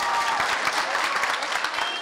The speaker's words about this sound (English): Several dozen opponents of the bill, overflowing from the committee room into the hallway, cheered when the bill failed to pass.